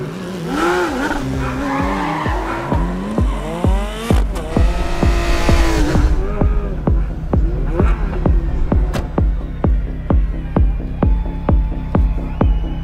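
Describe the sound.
Race cars speed by during a race, their engines whining in loud sweeps that rise and fall in pitch, then give way to a long run of rapid, rhythmic engine pulses.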